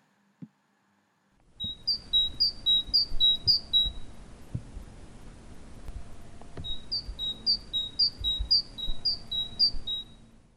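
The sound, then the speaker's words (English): Great tit singing its piercing teacher-teacher song: two runs of repeated, high, bright two-note phrases over a steady low background rumble, with a short faint knock just before the first run. “The Great Tit Song is varied, but it's perhaps best known for its piercing teacher, teacher song, which sounds very much like a bicycle pump”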